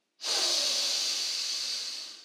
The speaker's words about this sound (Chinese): 再慢慢的吐气出去，深深的吸气